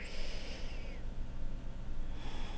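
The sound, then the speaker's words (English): A slow, deep breath drawn in during a guided relaxation exercise, heard as a steady airy rush that fills the whole clip at an even, moderate level. “close your eyes and take a nice deep breath.”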